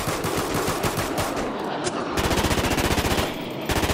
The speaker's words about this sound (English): Hey, shoot some rounds if they're trying to play.